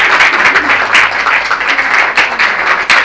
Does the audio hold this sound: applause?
yes